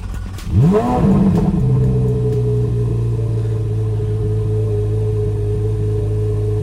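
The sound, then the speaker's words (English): A 2023 Corvette Z06 sports car engine starting, heard from the driver's seat with the door open: a quick crank fires into a sharp rev that rises in pitch, then drops to a loud, steady, droning idle. “All right, I'm starting up the Corvette Z06.”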